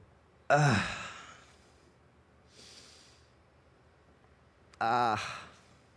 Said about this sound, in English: What does a groan sound like?